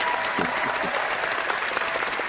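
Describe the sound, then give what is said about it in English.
Audience applause from a comics fan panel crowd: steady, loud clapping that fills the whole clip at an even level. “All right, let's clap. Crowd. Clap your hands up.”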